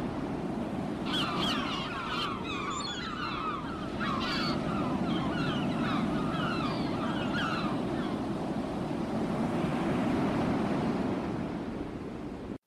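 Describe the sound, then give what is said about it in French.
Sea waves washing onto a beach make a steady, unbroken rushing hiss throughout, with high chirping calls over it during the first eight seconds. “Lorsque je me réveille, je suis sur une plage et j'ai les pieds dans l'eau.”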